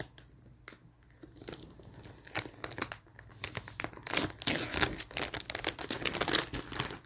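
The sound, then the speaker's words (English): Crinkling and tearing as the top of a main packaging bag is ripped open, dense crackly bursts that build and grow louder and busier toward the end, with no voices. “but it seems like you just rip the top of the main bag”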